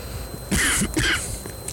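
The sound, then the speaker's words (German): A light cough with a throat-clearing quality, heard as two short, close bursts, the first slightly longer, over a low steady background. “Leichter Husten hier.”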